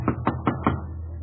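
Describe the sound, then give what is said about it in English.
Four evenly spaced knocks on the front door of a home in Berlin, firm raps of moderate loudness with nothing else heard. “He knocks on the front door.”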